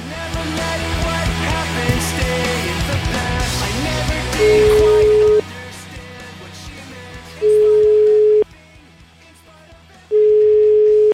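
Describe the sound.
Ringback tone of an outgoing telephone call ringing on the line: three steady, even, low-pitched tone bursts separated by short silent gaps. They follow a louder, dense stretch of sound at the start.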